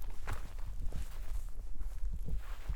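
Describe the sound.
Footsteps walking over to look at another stone, an old district marker stone: a few soft, uneven thuds in a steady walking rhythm, with no clear talk.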